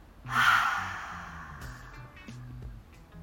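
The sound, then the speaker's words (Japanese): A deep breath drawn in and then let out fully during a guided relaxation breathing exercise: one loud, breathy rush of air that peaks early, then trails off slowly and softly. “ラスト吸って、全部吐き切ります。”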